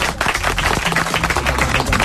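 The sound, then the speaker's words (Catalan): Applause from a studio audience greeting guests: a brisk, dense run of sharp hand claps that holds a fairly steady, lively loudness across the whole short stretch. “Un aplaudiment per tots.”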